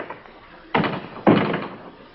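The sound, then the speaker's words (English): Two solid thuds from a door as a man walks out, the first knock-like bang followed about half a second later by a heavier thump that fades off gradually, with a quiet background. “But he goes to the door and walks out.”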